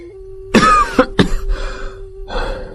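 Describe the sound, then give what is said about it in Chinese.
A man coughs in a fit after drinking strong imperial wine: about five harsh, loud bursts, some short and sharp, others rougher and drawn out, over a steady low hum. “咳了好一阵儿”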